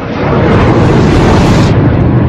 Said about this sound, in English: Mid-morning and two jets fly over the city.